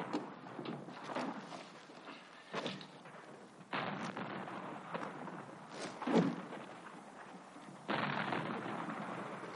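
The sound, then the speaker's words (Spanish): Explosions in a 1970 war film, with soldiers running through rain: a few abrupt, muffled booms break out over a low, rushing background, each one quickly fading. “Corren bajo la lluvia y las explosiones.”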